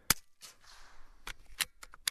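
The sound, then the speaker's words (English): Shots from a .22 caliber Russian biathlon rifle on a biathlon range come as a few sharp, brief cracks and clicks, faint and spaced irregularly across the short stretch, with quiet gaps between them. “an Ishmash, a 22 caliber Russian biathlon rifle. 50 meters away, the golf ball-sized target jitters in my front sight. I exhale, hold steady, pull the trigger.”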